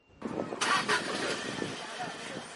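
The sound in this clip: A driving-school car's engine in Mogadishu rumbles into life with a rough burst, then keeps running at a steady, moderately loud idle until the end.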